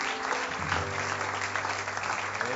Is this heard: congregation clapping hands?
yes